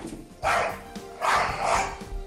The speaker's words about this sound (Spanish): El día del Bulldog es... por este que está ladrando.